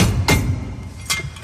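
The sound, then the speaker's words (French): Two sharp metallic strikes ring out as an impact screwdriver is hit to remove a bicycle headset cone, separated by a pause of under a second over a low background rumble. “Et là, je vais démonter à l'aide d'un tournevis à frapper mon cône de direction.”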